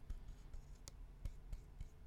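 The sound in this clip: Faint scratchy strokes of writing on paper, irregular soft scrapes and taps at low volume.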